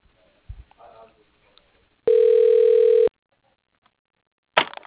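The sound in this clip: A telephone tone sounds while a call is transferred: a single steady, loud tone lasting about one second, with a few faint, brief noises before it and a short burst at the end.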